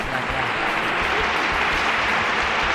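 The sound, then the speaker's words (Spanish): Applause for a band in a rehearsal space, a steady, dense wash of clapping that stays loud and even throughout, with no voices standing out. “Barro Piedra, un aplauso a Barro Piedra.”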